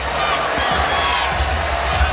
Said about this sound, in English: Now the Cavs will dribble it out.